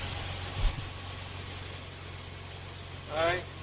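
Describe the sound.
A car engine idles with a steady, low, faint hum throughout, and a short voice breaks in near the end.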